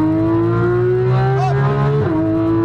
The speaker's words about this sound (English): Downshift. Unwind. Lots of throttle. Go for it.